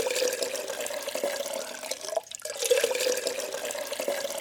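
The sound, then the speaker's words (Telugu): Water gushes from a hand pump at a borewell in a steady, splashing rush that breaks off briefly midway and then resumes at the same level. “Boring దగ్గరికెళ్ళి నీళ్లు తాగాడు”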